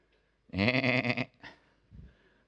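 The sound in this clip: A sheep bleats once in a long, wavering, voiced cry, followed by a couple of fainter, shorter sounds.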